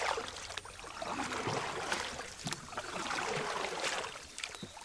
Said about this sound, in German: Wir steigen in ein Kanu um. Zwei Männer paddeln